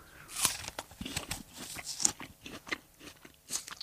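Someone bites into a whole apple with its skin on and chews, producing many crisp, juicy crunches in an uneven rhythm, with sharper snaps at the bites and softer wet chewing between them.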